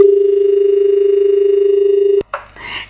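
A steady telephone dial tone is left on the line after the caller hung up. The even, mid-pitched drone holds for about two seconds, then cuts off abruptly, followed by brief rustling noise.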